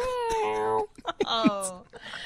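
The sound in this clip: A person imitates a cat's meow with a drawn-out, tonal meow, followed by brief talk.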